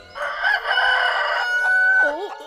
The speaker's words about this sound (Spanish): ¡Un pollo gigante!